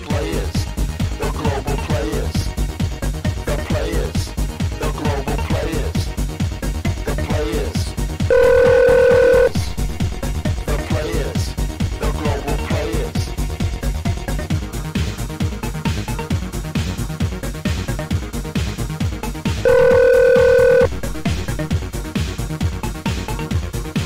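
A telephone rings during a radio call-in. There are two short, bright bursts about twelve seconds apart, each lasting about a second, over loud, steady dance music with a strong beat.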